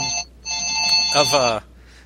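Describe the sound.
A ventriloquist's voice imitates a ringing telephone, producing two bright, buzzing electronic-style rings, a short one followed by a longer one.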